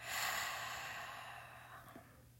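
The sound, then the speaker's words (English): A deep breath released as one long, airy exhale during a guided breathing exercise, loudest at the start and slowly fading away over about two seconds, with no talk over it. “Take another deep breath in and release.”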